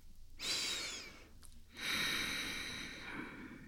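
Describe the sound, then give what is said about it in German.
Deep breathing during a yoga practice: two long, airy breaths, the second one longer and steadier, with a short quiet gap between them and no talk. “Und mit der Ausatmung lässt du los. Gut, noch ein, zwei Atemzüge.”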